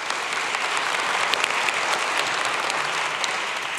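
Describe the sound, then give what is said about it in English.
Applause from the in-room audience at a church service: a steady, dense round of clapping that holds at an even level throughout, with no talk over it. “For those of you in the room, would you please give our online television audience a big hand?”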